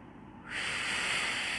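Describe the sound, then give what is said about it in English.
A deep breath taken during a calming exercise, heard as a soft airy hiss that swells up partway through and holds steady to the end, with no talking. “All right, deep breath first, in through the nose, out through the mouth.”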